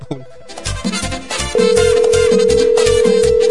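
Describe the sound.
A telephone rings with an incoming call on a radio show: a steady electronic ring tone starts partway in and holds unbroken over rhythmic background music until the end.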